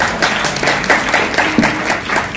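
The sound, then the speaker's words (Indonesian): Audience applause during a talk session: many overlapping hand claps form a dense, steady patter at moderate loudness from start to finish. “Oke, mari kita tepuk tangan.”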